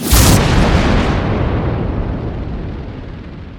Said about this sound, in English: The missiles seemed to reach her at the same time as she reached the raptors, and Tittidoo exploded.